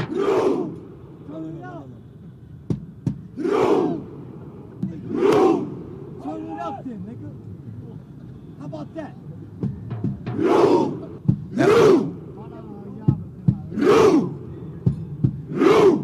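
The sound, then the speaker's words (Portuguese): Norwegian football fans in Times Square perform the Viking rowing chant after Norway's win, a crowd giving loud, rhythmic unison shouts in regular bursts over a steady background crowd murmur. “Os torcedores da Noruega estão em plena Times Square, vários, milhares de torcedores simulando uma remada.”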